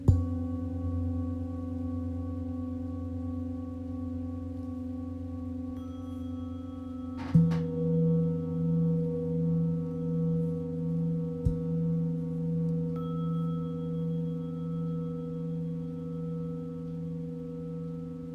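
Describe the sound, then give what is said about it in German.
A singing bowl rings with a sustained, humming tone. About a third of the way in it is struck again, and the note swells and pulses with slow wavering beats as it fades. A lighter tap follows later. “Mit dem Klang der Schale kommst du ins Hier und Jetzt zurück.”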